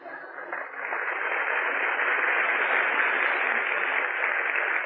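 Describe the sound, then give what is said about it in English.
Studio audience applause, muffled and narrow-band like an old 1940s radio recording. The clapping starts quieter, swells within the first second, then holds as a steady, dense roar to the end. “Well, go on, applaud.”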